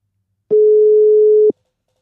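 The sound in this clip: A single ringback tone from an outgoing phone call placed by voice command on a smartphone: one steady, clean mid-pitched hum lasting about a second, standing alone with silence before and after.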